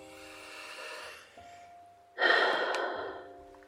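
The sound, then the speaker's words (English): A deep breath, heard as a soft, airy inhale followed by a louder, longer exhale, quiet overall above a faint sustained musical tone. “Let's take those three deep breaths.”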